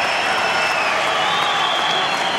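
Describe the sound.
Tennis crowd applauding and cheering during a set point in a professional match, a dense, steady roar of clapping and raised voices that holds loud and unbroken throughout.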